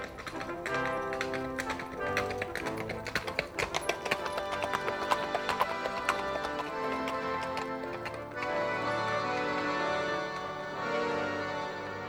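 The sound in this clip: Horses' hooves clip-clop in a quick, steady rhythm as two riders travel, heard over music. The hoofbeats stop after about eight seconds while the music carries on.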